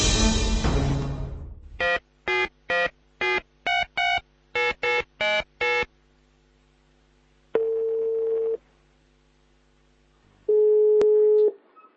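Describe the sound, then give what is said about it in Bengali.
A telephone call being placed and connecting: a rapid string of about eleven short keypad tones dialing a number, then two long steady ringback tones with a pause between them, following a loud burst of noise at the start. “আমরা এই মুহূর্তে ফোনে connect করছি মাসুমের বড় ভাই পারভেজকে।”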